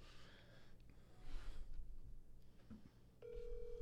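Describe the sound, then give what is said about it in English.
A faint telephone ringback tone sounds during a call to someone on speakerphone. Soft breathing and rustling come first, then a steady tone starts near the end. “Well, I'm going to call him right now, so we have to pause it. Just tell him. Be like, hey, yo, we got you on speakerphone.”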